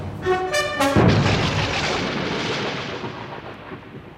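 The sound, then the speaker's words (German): A thunderclap in a radio drama breaks with a sharp crack, then rolls into a loud, deep rumble that slowly fades away, with no voices. “Sehr passend, der Donnerschlag.”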